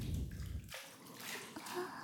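Bath water splashes and sloshes softly as a baby is washed in the bath. The faint, irregular movement carries no talk.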